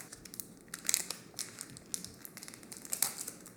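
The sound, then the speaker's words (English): Crinkling and crumpling of an ice cream wrapper with no tear notch as someone struggles to open it, with a few sharp crackly bursts standing out over softer rustling. “Tell me why I can't open up my ice cream. Do you need help? There's like no thing where you tear it.”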